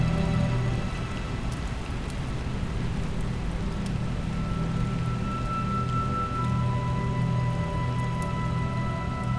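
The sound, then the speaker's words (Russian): Heavy rain pours steadily on a city in the evening, a loud, continuous downpour hiss with no break or change across the whole stretch. “В четвертой непомнящей столице шел ливень, как и почти всегда с наступлением вечера.”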